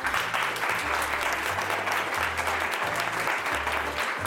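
A lively audience applauds with dense, steady clapping that holds at an even level throughout.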